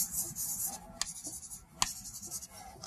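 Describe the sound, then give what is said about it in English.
A pen scratches over paper while someone draws a sketch, with continuous light rubbing strokes broken by a couple of sharp ticks, and no voices. “I'm gonna try to draw it down here. Okay, doing the same thing.”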